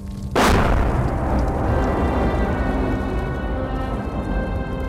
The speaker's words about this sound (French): elle entend les bombes exploser au-dessus de sa tête.